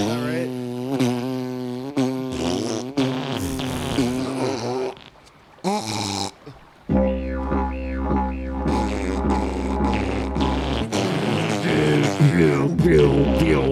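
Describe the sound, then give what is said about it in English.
High-pitched didgeridoo drone with tongue twangs imitating a kangaroo hopping on a road, pulsing in quick rhythmic bursts with a brief pause midway, then resuming at a lower, steadier buzzing drone. “If you imagine a kangaroo hopping in the road, it sounds like this.”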